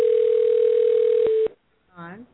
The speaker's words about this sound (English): Oh, you guys are dialing.